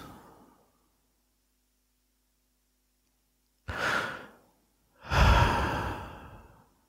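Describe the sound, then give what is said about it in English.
Slow, deep breathing during a guided meditation: after a faint breath fades out and a long pause, two drawn-out breaths follow, the second louder and longer than the first. “For a while, we just hear the breathing. Just breathe into your stomach and out from your stomach, in and out.”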